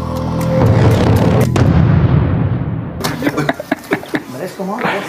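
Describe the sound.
Gunshots fired during an incident in Rio de Janeiro. A loud, noisy burst comes early, then many sharp cracks follow in quick, uneven succession, with people talking throughout.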